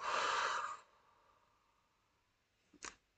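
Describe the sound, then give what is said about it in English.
A deep breath taken in and let out, heard as a long, loud, breathy exhale that fades away, then a short, sharp breath near the end. “let's start this episode with a nice deep breath in and out.”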